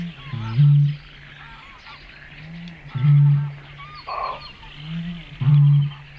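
A person imitates a bittern's boom through a reed, producing three deep, hollow booms spaced evenly a few seconds apart, with quieter rustling between them.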